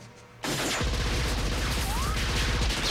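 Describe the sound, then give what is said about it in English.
Machine-gun fire in a film action scene, a loud, sudden burst that breaks into rapid, evenly spaced shots and continues without a pause to the end. “Spotlights come on his body and he starts shooting Hobbs' men while Hobbs scrambles under the table.”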